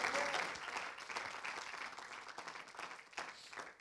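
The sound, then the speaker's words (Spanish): Applause from a church audience: a dense, continuous wash of clapping, strongest at the start and easing slightly before a last small swell near the end. “Aleluya, denle ese aplauso al Señor.”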